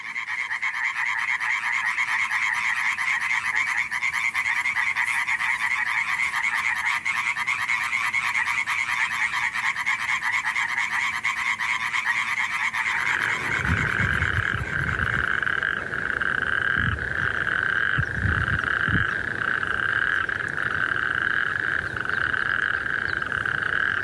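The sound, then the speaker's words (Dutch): A chorus of tree frogs, pool frogs and natterjack toads calls to females at the height of spring. Dense, steady croaking runs without voices, and about halfway through the chorus changes to lower, pulsing croaks. “Hier volgt een kikkerconcert. We horen achtereenvolgens de boomkikkers, de poelkikkers en de rugstreeppadden.”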